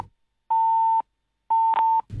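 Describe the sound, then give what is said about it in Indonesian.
Two steady, mid-pitched telephone beeps after a call is cut off, each about half a second long with a short gap between them. The tones are loud and heard alone, with the second briefly broken by a click. “sempat terhubung tadi atau tersambung tetapi terputus ya, mohon maaf”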